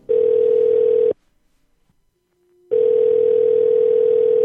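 A telephone line gives a loud, steady single-pitch tone after the caller hangs up. The tone cuts out for about a second and a half, then resumes unchanged, with no voices.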